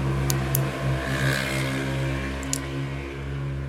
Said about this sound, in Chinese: 那个是机车，非常非常确定的是机车，抱歉。